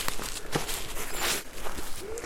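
Footsteps crunch through a mixed spruce forest littered with many old fallen trees, a few uneven steps against a steady, noisy outdoor background.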